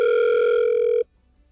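A telephone rings as a call is placed, a single steady electronic tone holding for about a second before cutting off abruptly to silence.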